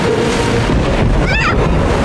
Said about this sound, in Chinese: 也许这小暴风雨一点也不小，我们找个地方躲一躲。